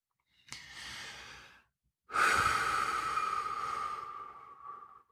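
A single deep breath, taken alone: a soft inhale of about a second, a short pause, then a longer, louder sighing exhale with a faint whistling tone that slowly fades away.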